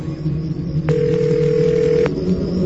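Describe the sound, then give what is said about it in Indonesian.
A telephone ring-back tone as a call is placed: a single steady electronic tone lasting just over a second over a low background hum. “Sampai di teras rumahku, aku pun langsung menelpon Bayu.”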